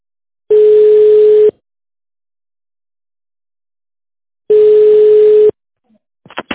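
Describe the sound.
Loud telephone ringing tone while calling a business contact: two steady, mid-pitched tones, each about a second long, separated by a long silence, followed by a few short clicks.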